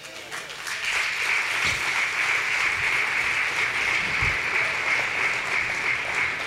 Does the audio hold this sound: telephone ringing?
no